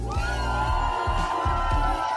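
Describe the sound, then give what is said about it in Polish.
Crowd cheering and whooping in a jazz club in Szklarska Poręba: a loud, continuous roar of voices that holds steady throughout, with a low droning tone underneath. “Proszę Państwa, bawimy się tutaj w klubie Jazz God. Jest z nami cały tłum. Powitajcie Polskę!”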